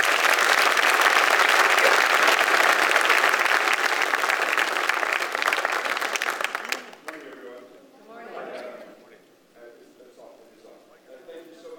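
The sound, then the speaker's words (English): An audience applauds to welcome a pastor to the stage at a morning gathering. Loud, dense clapping lasts about seven seconds, then stops abruptly and a voice begins talking. “Let's all put our hands together and welcome Pastor Gary Rivas here this morning.”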